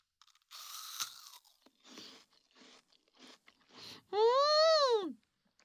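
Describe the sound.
Crunchy bites of a snack being eaten: five dry crackling crunches in an uneven rhythm, then a voice hums an appreciative 'mmm' that rises and falls in pitch.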